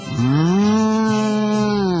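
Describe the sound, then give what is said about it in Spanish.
A person imitates a cow mooing, voicing a white cow with black spots: one drawn-out, low, harmonic moo lasting nearly two seconds. It rises slightly at the start, holds steady with a brief catch midway, and is heard alone. “¿Cómo muge una vaca blanca con manchas negras?”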